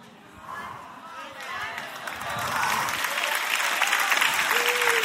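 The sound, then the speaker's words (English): A church audience shouting and applauding during a sermon: a crowd of voices and clapping swells steadily louder and stays loud to the end. “And you know why y'all are shouting over an anatomy lesson?”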